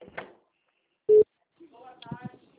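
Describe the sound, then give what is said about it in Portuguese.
A single short, steady telephone tone sounds after a call drops, alone between brief stretches of a person talking. “a ligação caiu”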